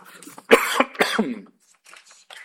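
A person coughing as the throat catches, a few harsh, voiced bursts in quick succession, followed by near silence with faint sounds trailing at the end.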